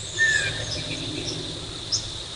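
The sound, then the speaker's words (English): Two brief, high chip calls from a northern waterthrush, well spaced apart, over a steady background hum of insects. “You that chip now? It's a northern water thrush.”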